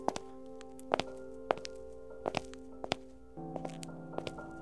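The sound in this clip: Footsteps climbing a staircase: a steady series of soft, dull thuds, evenly spaced, over a sustained tonal hum that shifts lower near the end.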